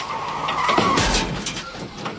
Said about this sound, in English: Well, it looks like a car is ramming another car.